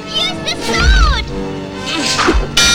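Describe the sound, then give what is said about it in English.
Axes and spears hit a wooden drawbridge in a few sharp, heavy thwacks and whooshes, mixed with shouting voices. “Axes and spears bury themselves in the drawbridge.”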